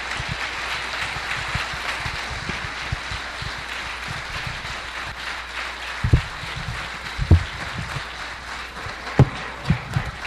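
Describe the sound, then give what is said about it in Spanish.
Audience applause at an international congress on distilled spirits, greeting the close of a talk that ends the day's session. The clapping is dense and steady throughout, with a few sharper, louder claps standing out toward the end. “Más fuertes esos aplausos, por favor”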